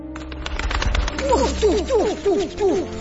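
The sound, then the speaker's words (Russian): A sound effect of a large white owl hooting: a series of short, downward-sweeping hoots that overlap one another over a low, steady rumbling background. “Это была очень большая, больше Юстаса, белая сова.”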